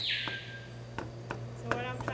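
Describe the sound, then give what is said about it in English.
A knife chops bird food by hand, cutting it into small pieces sized to a bird's beak. About five sharp, irregularly spaced taps sound over a steady low hum. “Cut it as small as I can without making it like mushy, because our general rule is you feed a bird food that's kind of the size of its beak.”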